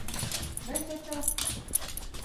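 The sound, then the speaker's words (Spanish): A dog greets arrivals at the door of a home in Carson City with a brief whining whimper, amid shuffling noise and a person talking over it. “Cuando entras a la casa de Yasmín Valenzuela en Carson City, de inmediato te saluda su perro Chocho.”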